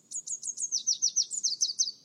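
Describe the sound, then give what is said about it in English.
Red warbler singing: a rapid, evenly spaced run of many high, sweet down-slurred notes, clear and alone over near silence. “If you know how to distinguish it, the song of the red warbler is enough to tell you whether the morning is clear.”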